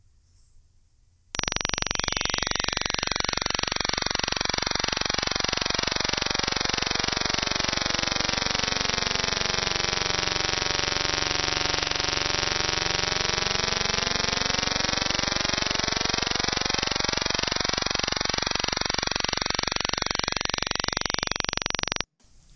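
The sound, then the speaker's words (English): Sustained meditation tone known as the good fortune tone, a loud, unbroken drone lasting about twenty seconds, its overtones slowly swirling and shifting in a wavering, beating pattern before it cuts off. “Meditate on this sound. It's the sound of the good fortune tone.”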